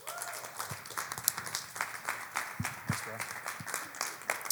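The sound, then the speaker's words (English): A church audience applauds to welcome a guest pastor, with moderate, fairly quiet clapping running steadily throughout and scattered voices mixed in. “So would you just put your hands together and welcome him today?”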